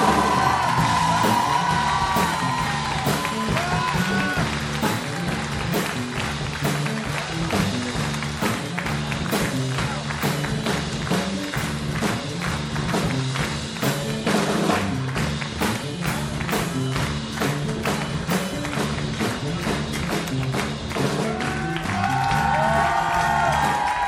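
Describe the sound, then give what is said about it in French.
A long, loud audience ovation fills the stage, with dense clapping, rhythmic beats, whoops and cheering yells holding strong throughout. “Une ovation générale pour Antoine Cognam.”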